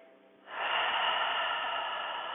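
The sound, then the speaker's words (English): A long exhale out through the mouth during a yoga class, a breathy rush that swells quickly from near silence and then holds steady and fairly loud to the end. “Let's take an inhale together and an exhale out the mouth.”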